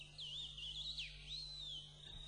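A small bird chirps in a faint, thin, high warbling whistle that wavers and dips briefly. A low steady hum runs underneath.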